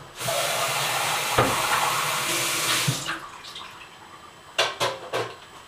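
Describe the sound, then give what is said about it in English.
Liquid pours from a can into a Faya container with a steady, loud gushing for about three seconds, then a few short splashy trickles as the flow ends. “So just pour that in its entirety. One can fits easily into the into the Faya container without any spillage”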